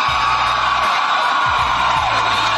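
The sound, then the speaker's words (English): A crowd at a political rally cheers and whoops just before an election, a loud, continuous roar of many voices. “As those and other Americans blindly cheered that statement”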